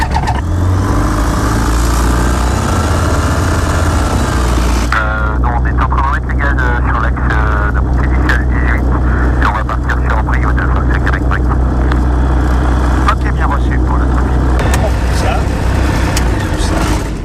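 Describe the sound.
A light aircraft engine starts before a flight, following the pre-flight check: the engine catches about five seconds in and settles into a loud, steady drone that runs to the end.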